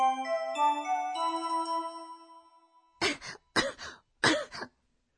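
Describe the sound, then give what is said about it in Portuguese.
Three harsh coughs from someone with a cold come in short, separate bursts after a few seconds of soft, ringing chime tones fade away. “Seki ga demasu.”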